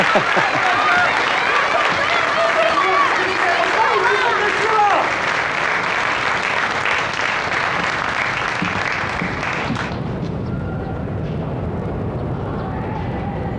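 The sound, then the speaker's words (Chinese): An audience applauds to welcome a poet about to recite a Pushkin poem. The sustained, dense clapping stays loud, then thins and softens toward the end. “掌声欢迎。”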